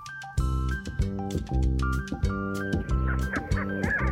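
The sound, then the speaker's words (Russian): Black grouse calling, a series of loud nasal, honking notes repeated at a steady pace of about two per second, with each note pressed and drawn out. “Тетерев на петуха похож, и голос у него по-петушиному сдавленный и протяжный.”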